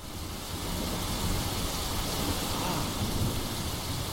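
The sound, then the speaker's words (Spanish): Rain falling from clouds: a dense, steady hiss of rainfall fills the whole clip, swelling slightly early on and then holding even, with no voices. “Esta lluvia formará ríos”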